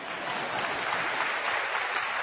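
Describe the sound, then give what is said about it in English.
Audience clapping at a talk, a continuous wash of many hands applauding with no pauses, steady and fairly loud throughout. “Oh, yeah, you can clap that.”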